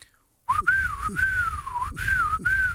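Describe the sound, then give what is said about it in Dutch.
Someone whistles a self-invented signal tune once used to let friends know who was coming. The clear, wavering whistle rises and falls in a few short phrases, each separated by a quick breath, with no talk over it. “jullie hadden voor de film al jullie eigen fluittoon bedacht. Ja, weet je nog hoe die klonk? Ja, en kan je het fluiten?”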